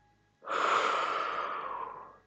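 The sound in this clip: A long exhale during a back-rounding exercise: a soft, airy breath starts abruptly, swells, then slowly tapers over nearly two seconds, heard alone without talk.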